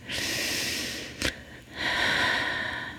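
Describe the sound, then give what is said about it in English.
One deep breath, heard alone: a long airy inhale, a brief sharp catch, then an extended breathy exhale. “So I want to give yourself a moment to take a deep breath.”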